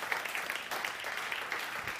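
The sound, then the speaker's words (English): Applause from a gathered group at a church Bible study: steady, continuous clapping that holds at an even, moderately soft level throughout with no clear talk over it. “I think we should just, like, clap for a moment.”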